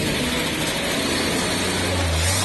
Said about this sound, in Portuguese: Vamos agora ligar o nosso Chevette.